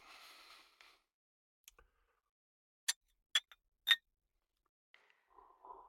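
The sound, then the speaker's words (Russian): Wine glasses clinking in a toast: a few sharp, bright clinks in quick succession, set apart by near silence, with a faint rustle before and after. “Они осушили бокалы”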